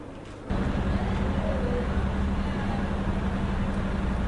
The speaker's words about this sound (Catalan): Aquí bàsicament és el soroll dels cotxes, del trànsit que hi ha i l'afluent de gent cap a dalt i cap a baix pels carrerons.